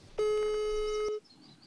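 A telephone ringing tone as a call is placed: a single steady, mid-pitched tone that lasts about a second and then stops, leaving near silence.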